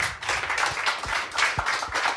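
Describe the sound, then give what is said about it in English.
An audience at a public discussion meeting breaks into applause. The clapping is dense and continuous, with a few sharper claps standing out above the steady patter and no voices over it. “I think a round of applause there.”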